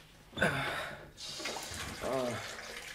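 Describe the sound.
Water running from a tap in a steady, soft hissing stream, with a voice making short exclamations over it.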